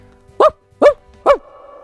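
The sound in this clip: A person imitating a dog barking, with three short, loud, evenly spaced woofs. A faint, steady musical tone continues underneath and after them.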